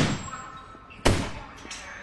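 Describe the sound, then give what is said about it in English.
A gunshot at a shooting range, fired at a paper target, cracks out as a single sharp, loud bang midway, standing out against a quieter low rumbling background. “Harry shoots at a paper target drawing, wearing a bomb vest.”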